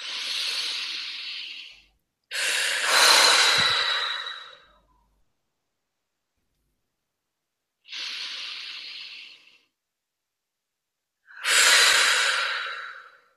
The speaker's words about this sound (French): on va inspirer et vraiment souffler. Jusqu'au bout du souffle, jusqu'à ce qu'il n'y ait plus rien. Et on recommence.